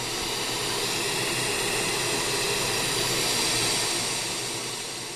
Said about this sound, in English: all of our customers have the opportunity to personalize those with an engraved nameplate right here. We make the nameplates, we send it out to our dealers, and just another added touch that Walsh offers to our customers. And so this is the machine that does it.